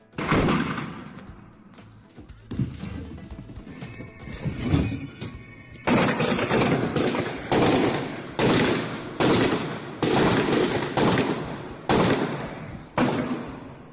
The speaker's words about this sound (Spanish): Cuando los agentes que protegían el consulado le dieron el alto, comenzó a disparar y se produjo este tiroteo.